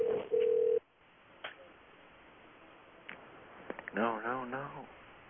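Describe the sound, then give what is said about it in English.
A telephone dialing out sounds a short, loud, steady tone with one brief break; the tone cuts off, and people then talk over faint line noise. “I think it's dialing out. Hang up.”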